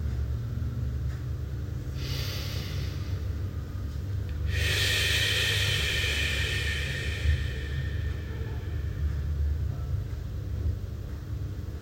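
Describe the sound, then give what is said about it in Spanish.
Slow, deep breaths drawn in through the nose and let out through the mouth: a couple of long, soft, airy rushes, the second fuller and louder, over a steady low hum. “o tres respiraciones profundas, inhalando por nariz y exhalando por la boca.”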